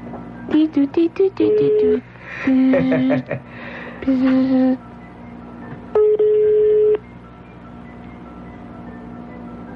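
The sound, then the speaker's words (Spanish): A telephone number is dialed as quick bursts of touch-tone beeps in short groups, followed by a single longer steady tone, all clear and fairly loud. “Estamos ya marcando.”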